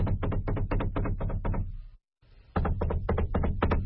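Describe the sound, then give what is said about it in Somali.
Quick, even knocks on a door come in a long run, stop briefly, then start again. A steady low hum sits underneath. “maxaad albaabka si tartiib ugu garaacaysaa uma malayna inuu qofnana maqli doono haddii aad sidan tartiibta u sii garaacdo”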